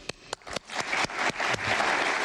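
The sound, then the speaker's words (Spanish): Applause at a ceremony as a man claps for his wife and the audience joins in. A few separate sharp claps swell into a dense, steady round of clapping. “Aplaude Marcelo a su esposa y se une la concurrencia.”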